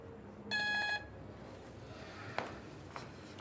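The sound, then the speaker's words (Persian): A single telephone keypad tone sounds for about half a second as a phone is dialed for a call, followed by quiet hiss and two faint clicks. “بهش یه زنگ بزن بگو بابام خونه از زودتر بیا.”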